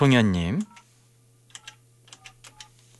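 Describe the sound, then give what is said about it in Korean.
Dialing an outgoing phone call: a voice speaks briefly, then a run of quick, soft button clicks follows over a faint, steady low hum. “김송현님에게 전화 한번 해볼게요. 자, 신호 갑니다.”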